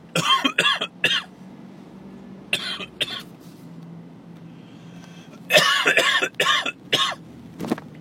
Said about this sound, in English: But I can't almost choke on a drink. Don't breathe and drink at the same time. It doesn't work.